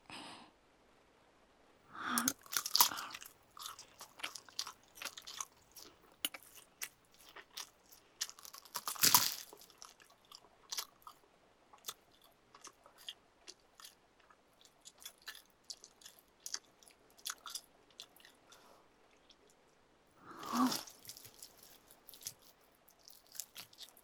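Crunchy food bitten and chewed piece by piece: a quiet run of many small, crisp crunches and clicks, with a few louder, sharper bites standing out.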